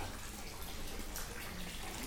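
Water rushes and splashes steadily from a fountain housed in a covered, shed-like structure, a continuous even wash without breaks or distinct drips.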